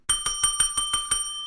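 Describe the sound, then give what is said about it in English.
A bright metallic bell signals game time, struck seven times in quick, evenly spaced succession, its high tone ringing on briefly after the last strike. “that bell ringing means it's game time, my friends.”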